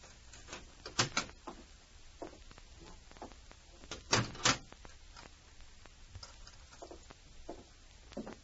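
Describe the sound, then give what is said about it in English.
A lock in a jail clicks with a few sharp, dry mechanical snaps that stand out among many softer ticks and knocks. The sound is faint overall, with two louder clusters of clicks and no talk. “Then he heard the click of a lock.”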